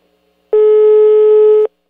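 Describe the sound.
A single steady telephone tone heard after dialing a call, loud and clean, lasting about one second and standing alone against silence.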